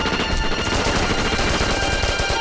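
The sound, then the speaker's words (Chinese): Sustained gunfire in battle: dense, overlapping machine-gun bursts and shots merge into a loud, continuous clatter with no breaks. “从枪声判断，二连他们正想冲过来。”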